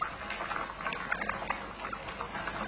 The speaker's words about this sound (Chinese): 加入清水，放入鸡块，完成面炕鸡的最后一步。